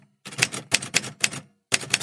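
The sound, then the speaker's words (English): Typewriter keys strike in loud, crisp clacks, grouped into short rapid bursts separated by brief pauses, with no talking. “typewriter, which I really like because, well, for a number of reasons. I like because you can't edit. You can't edit in the normal way, so it kind of gives you a bit of forward motion. I like the sound it makes, and I thought that might be good for this podcast, so I'll give you a little sample.”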